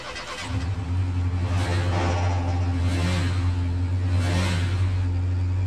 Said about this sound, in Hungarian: Hát akkor indítom a kocsit